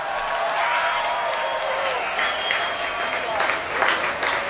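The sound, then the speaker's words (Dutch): An audience applauds the Royal Concertgebouw Orchestra as it walks onto the stage. The clapping is steady and dense, sustained at an even, moderate level throughout. “wil ik jullie vragen voor een groot applaus voor het Koninklijk Concertgebouworkest onder leiding van de geweldige Han Na Chang.”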